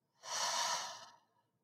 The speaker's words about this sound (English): let's take 3 slow, deep breaths together. So go ahead and inhale. Exhale.